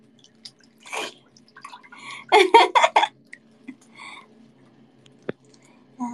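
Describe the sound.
Warm bath water splashing and dripping: a few light drips, then a tight cluster of loud splashes in the middle, followed by quieter scattered drips and a last sharp drop.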